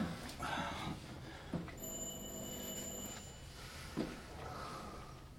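A doorbell rings once at a door that police are asking to have opened. It gives a steady, buzzing tone that lasts over a second above low background noise, with a couple of soft thuds around it.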